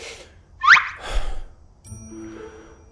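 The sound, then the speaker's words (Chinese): A man with a cold sneezes once: a sharp, rising intake leads into a loud, noisy burst, followed by quieter tonal sounds. “赵普一个喷嚏”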